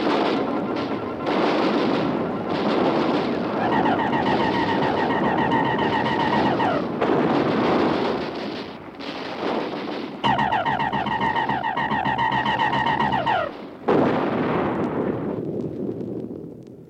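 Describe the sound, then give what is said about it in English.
Artillery batteries firing as a sound effect in a radio drama war scene: a dense, continuous barrage of booming blasts and rumble, with steady whining tones that rise out of the noise at times. The barrage stays loud throughout. “They're coming at us! All batteries, repeat fire!”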